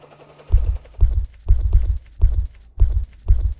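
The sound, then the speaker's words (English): Heavy jackboots stomp on a rooftop, making a steady series of about six deep, thudding footfalls at a regular marching pace, heard alone with no talking. “What was that? Sounded like up on the housetop. Jackboots.”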